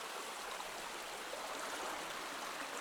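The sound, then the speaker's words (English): Water flowing down into a deep turquoise pool at the base of a fall: a steady, faint, even rushing hiss that runs without a break, with no voices. “the water's slowly going along and it's descending down into a turquoise pool at the base”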